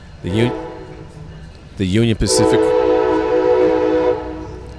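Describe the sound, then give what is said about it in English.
A passing train, on a line carrying Union Pacific and Amtrak traffic, gives a sustained horn-like tone that holds steady for a couple of seconds. A voice talks over it. “here goes our train going by, right?”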